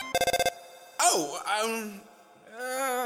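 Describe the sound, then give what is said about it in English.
A mobile phone rings with six quick, bright, pulsed tones packed into about half a second. A voice speaking animatedly follows right after. “I'm sorry, human, that was my phone ringing. That would be her calling right now. I've gotta take this.”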